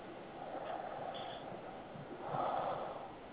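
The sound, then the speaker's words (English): Heavy breathing, like Darth Vader, comes as two long, rasping, hollow breaths, the second one louder. “who the fuck's breathing like Darth Vader?”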